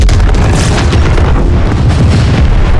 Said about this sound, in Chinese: 是潘古山，不好，矿洞炸了！